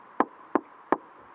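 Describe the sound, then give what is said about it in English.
Three evenly spaced knocks strike a cabin door on a stormy night, each a sharp, hollow rap standing out over a faint, steady background. “there came a knock on the door.”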